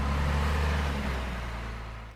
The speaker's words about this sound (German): Gerade kommen die nächsten Lkw auf das Kasernengelände gefahren.